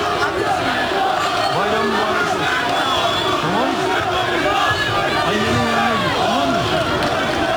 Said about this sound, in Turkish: O samimi anlar alandaki binlerce vatandaş tarafından da büyük alkış aldı.